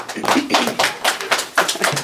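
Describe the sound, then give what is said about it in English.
People clapping as a city meeting is adjourned, heard as uneven bursts of hand claps, a few sharp strikes at a time, rather than steady applause. “Are you clapping because it's over?”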